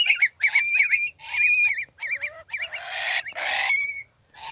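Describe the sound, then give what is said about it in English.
Adult long-billed curlews screech near their nest in a rapid series of harsh, wavering high calls delivered in loud bursts with short gaps, and a voice speaks briefly. “That's the sound of screeching adult curlews.”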